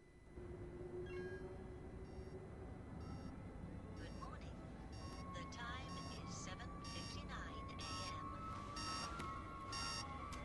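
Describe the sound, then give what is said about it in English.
Electronic alarm from a bedroom TV going off in the morning, a faint, regularly repeating pattern of many short beeps over steady sustained tones. “Theo is woken by his TV alarm.”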